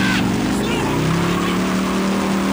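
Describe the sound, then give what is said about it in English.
A car engine revs hard as the car is driven fast, a loud, steady drone with a strong low hum that holds throughout. “Ah! Would you slow down? Jeez, I hate when you drive like that.”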